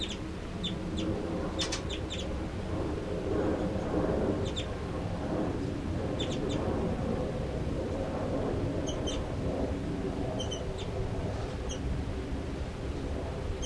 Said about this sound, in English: in the cell of birds 3-3 and 5-9. And this is both of those birds.